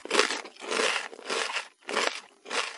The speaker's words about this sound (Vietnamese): nhai dừa rầm rớt